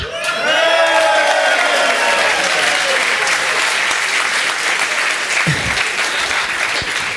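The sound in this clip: Audience applause and cheering at a year-in-review show about the year 2000. Loud, dense, steady clapping from a large crowd, with a few whoops early on, continuing for the whole clip.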